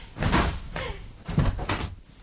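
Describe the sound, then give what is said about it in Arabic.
A door is opened in a radio drama, producing two loud bursts of clunking and handling noise with no voices. “اهو جاي بسلامته، اما قوم افتح له.”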